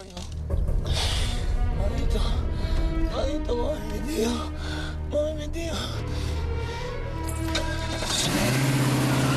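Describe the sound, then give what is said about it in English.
A car engine starts and revs as the car reverses up a street, the motor running steadily under other sounds for several seconds before the tone changes near the end. “Back in the car, Peoples looks at Lucifer.”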